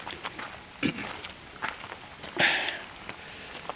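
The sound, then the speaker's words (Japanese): Footsteps along a mossy, root-crossed path to a shrine, a few soft, irregular steps and scuffs, faint overall, with one louder scrape partway through. “はい、じゃあここから歩いていきましょう。”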